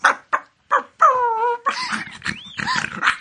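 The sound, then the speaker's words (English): A small dog barking and growling: a few sharp, short yaps, then a longer wavering whine-like growl and a stretch of rough, agitated noise. “horrible little monster dog ran towards her”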